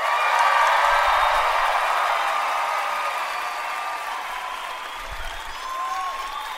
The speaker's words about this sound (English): Look at that. Wow. Standing ovation.